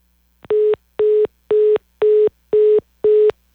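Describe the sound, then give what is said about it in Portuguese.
Busy signal after a dropped phone call: a steady run of evenly spaced, mid-pitched electronic beeps, each short tone separated by equal gaps of silence, with no talk. “Nós tivemos agora uma queda de ligação com o Leandro, mas já a gente volta com ele aqui.”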